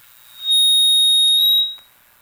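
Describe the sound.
An incoming phone call signal sounds as one shrill, steady electronic tone lasting just over a second. It fades in and out smoothly, with faint hiss around it.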